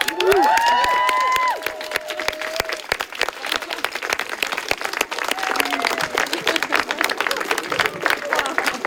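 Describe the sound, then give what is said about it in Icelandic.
Applause from friends and family gathered for a party at a home, opening with a few high cheering voices, then dense, steady clapping that carries on to the end. “Heyrum í honum. Og þá klöppum við bara.”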